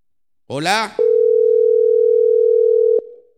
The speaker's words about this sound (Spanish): Me cortó el regidor. A ver, de nuevo lo llamo.